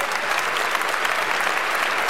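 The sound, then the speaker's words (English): A warm round of audience applause honors a woman introduced on stage at a gathering. The clapping is dense and even throughout the short stretch, with no speech. “Please give a big warm round of applause to Mother Tynetta Muhammad.”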